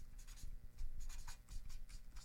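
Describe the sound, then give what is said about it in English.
Pen or pencil writing on paper, with quick scratchy strokes coming in irregular bursts. It is soft but clear, and no voices are present. “So I'll write something down. As a matter of fact, here, I'll write this down.”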